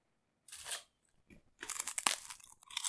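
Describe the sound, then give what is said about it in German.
Dry crunching of rice cakes being eaten: one brief crunch, a short pause, then a longer run of crackly chewing. Fairly quiet, with no voices. “Wow, diese Reiswaffeln schmecken wie Vollkotze.”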